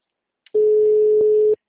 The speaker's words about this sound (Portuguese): a ligação caiu.